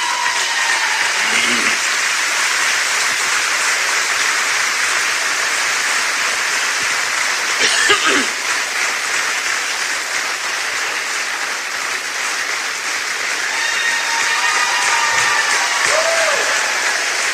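An audience applauds a newly inducted member of a high school athletic hall of fame at an induction ceremony: loud, dense, sustained clapping that continues evenly for about seventeen seconds.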